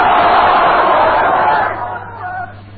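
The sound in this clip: A crowd at a religious gathering shouts a takbir slogan in unison. Many voices make a loud, full roar that holds for about a second and a half, then drops and fades away.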